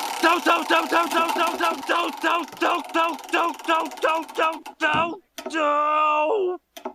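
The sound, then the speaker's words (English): A spinning prize wheel turns with a run of bright tonal ticks that gradually slow down, then a sustained ringing tone sounds after a brief pause. “we're gonna need that wheel of random. Let's give it a spin to see which season we're in.”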